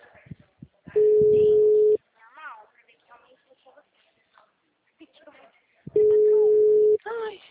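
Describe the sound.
A telephone line tone plays while a call is being placed: two steady, mid-pitched tones, each about a second long and evenly loud, separated by several seconds of talk.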